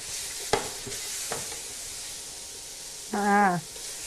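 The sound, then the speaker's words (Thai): Stir-frying in a pan over high heat after sesame oil is added gives a steady sizzle, broken by a few sharp knocks of a utensil against the pan. “น้ำมันงาข้อสำคัญเลยนะใส่สุดท้ายเร่งไฟแรงแล้วก็ผัดให้สุกเลยค่ะ”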